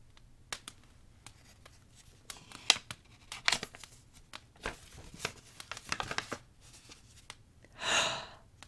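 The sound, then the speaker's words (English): A paper envelope is torn open with quiet, scattered rips and crinkles, and a longer, louder tear comes near the end. “You said it was a lot, but this is just an envelope. Okay, I'll open it.”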